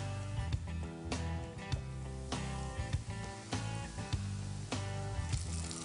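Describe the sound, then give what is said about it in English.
Flour-coated oysters frying in canola oil, a continuous crackling sizzle with occasional louder pops. “All right, we have our oysters coated and we're gonna test our oil. That looks great. Now, one by one into the oil.”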